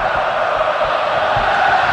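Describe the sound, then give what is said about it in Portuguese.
Loud, continuous roar of a football crowd in the packed Neoquímica Arena during a stoppage for a foul, with Santos trailing Coritiba 3-0. A dense wash of many voices holds steady throughout. “Ouça, ouça, ouça o público aqui na Neoquímica Arena.”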